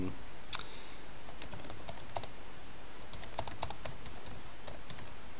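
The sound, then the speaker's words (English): Typing text on a computer keyboard, many quick, light key clicks tapping in uneven bursts with brief pauses between runs. “And then we just type in whatever we want to type in.”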